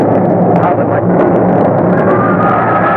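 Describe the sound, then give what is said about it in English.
Mount Vesuvius volcano erupting and exploding, a loud, dense, continuous roaring rumble that stays at full strength throughout, with faint crackling bursts scattered through the roar. “Our Vesuvius has exploded! The whole mountain is on fire! Vesuvius is erupting!”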